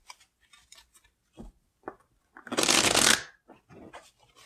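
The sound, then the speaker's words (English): Shuffling of a tarot deck: one loud, dense riffling burst lasting under a second, surrounded by a few softer taps and card-handling noises. “and we're going to draw one last card.”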